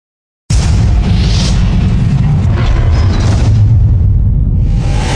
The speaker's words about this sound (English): Here's the trailer for John Carter.